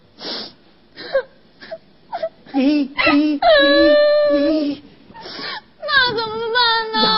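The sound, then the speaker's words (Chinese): A person crying loudly: several short choked sobs give way to long, drawn-out wailing moans with wavering pitch, rising to a sustained loud cry near the end. “你别哭，你别哭，你别哭啊！哎呀呀，你这时候哭有啥用啊？”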